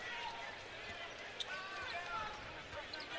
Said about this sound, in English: Jizzle James, slow bounce into forecourt.